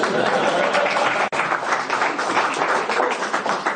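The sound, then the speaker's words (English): Audience applause after a lecture, dense continuous clapping from many hands, loud and steady for nearly four seconds, with a brief sharp dropout near the start and a slight fading flutter toward the end. “So I'm going to officially finish at this point to tremendous applause.”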